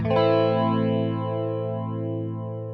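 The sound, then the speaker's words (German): A chorus effect with the clean signal removed leaves only pitch modulation on a sustained note, which starts sharply, then wavers and slowly fades across its length. “Das ist der Chorus ohne das Clean-Signal. Ja. Das heißt, es bleibt eigentlich nur eine Modulation der Tonhöhe übrig. Und das klingt dann vielleicht ungefähr so.”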